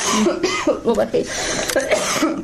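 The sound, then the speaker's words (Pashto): A person with a cold-weather illness coughs in a few harsh, breathy bursts with some throat-clearing rasp. The coughs come close together and sound fairly loud. “ټوخیږم”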